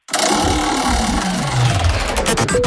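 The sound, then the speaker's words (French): A game show prize wheel is spun to choose the next game, making a loud, rapid mechanical whirring and clicking. The clicks run steadily and then space out slightly toward the end, with no voices. “On tourne la roue pour choisir notre jeu ?”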